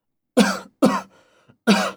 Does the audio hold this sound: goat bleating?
no